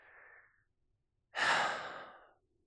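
A person acts out a deep breath: a short, faint airy breath, a pause, then a loud, long sighing exhale that slowly fades away.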